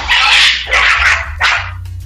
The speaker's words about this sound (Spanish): Mándelos para afuera, mándelos para afuera. Que hay unos perros y aquí los estamos corriendo.